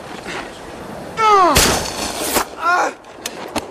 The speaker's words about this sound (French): J'ai encore assez de force pour tirer. Pistolet!